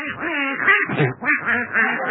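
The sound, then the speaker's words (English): A duck quacks in a run of nasal, rasping calls, several quacks following one another in quick, uneven succession. “Come on, get out of my bed, you silly-looking duck. Out.”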